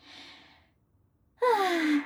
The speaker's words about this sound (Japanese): 大きなあくびですこと